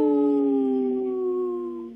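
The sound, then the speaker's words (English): People imitating a wolf howl, a loud sustained tone with rich harmonics that holds steady and sinks slightly in pitch over about two seconds, with no talk. “Howl!”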